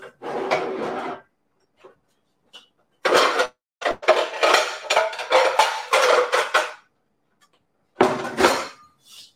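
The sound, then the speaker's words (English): Clanking and scraping of a Lodge cast iron wok being handled among pans, heard as several bursts of metallic clatter separated by short silent pauses, with no talk. “So this is what I got. This was a Christmas present. So this is the Lodge cast iron wok.”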